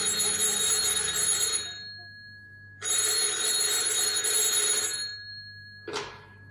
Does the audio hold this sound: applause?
no